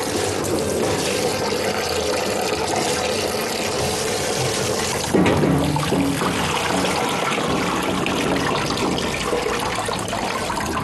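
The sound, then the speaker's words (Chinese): Running water pours steadily from a tap as tripe is rinsed and turned over leaf by leaf under the flow, a continuous hissing splash that grows slightly fuller midway, with no talk. “第二遍洗的时候，就得一页页翻着洗，一定要用活水，活水能冲得干净。”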